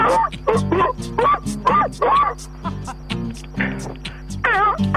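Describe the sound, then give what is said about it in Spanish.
Dog barks and yelps arranged into an electronic song version, the short bark bursts following a melody in many rhythmic hits over a steady synth and bass pulse. “Sí, la versión de perros de... Los perros cantando.”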